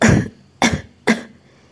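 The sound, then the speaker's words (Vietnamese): A man coughs continuously, three hoarse bursts spaced evenly apart, each sharp at the start and fading quickly. “Đông Lâm Vương ho liên tục không dứt.”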